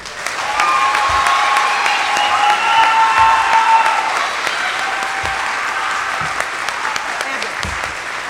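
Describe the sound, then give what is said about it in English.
Audience applause at a university opening convocation and worship service for the co-presidents, ensemble and organist, a loud, steady wash of many hands clapping that continues for about eight seconds and eases slightly near the end. “can we get another round of applause for our three co-presidents, Hannah and Meredith and Ella, and our ensemble, and Luke, our awesome organist.”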